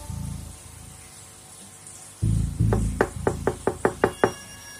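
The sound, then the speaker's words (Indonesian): Knocking on the front door of a house: a dull thud, then a quick, even run of sharp knocks that grow slightly louder, heard alone against quiet background noise. “Ketika aku sampai di depan rumahnya, aku pun langsung mengetuk pintu.”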